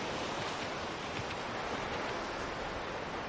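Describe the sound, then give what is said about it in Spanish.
Water breaking against rocks along a shoreline, heard as a steady, even wash of surf noise with no pauses and no voices. “El agua rompe contra las rocas de la orilla.”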